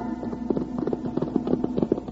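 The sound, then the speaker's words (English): Horses' hooves clip-clop as two riders come into a small cow town, a steady run of fairly quiet, even beats over a low hum. “Wild Bill Hickok and Jingles rode into the little cow town of Danville looking for Sheriff Blake.”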